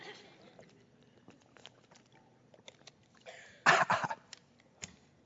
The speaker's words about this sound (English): have a little communion crumb in my throat there.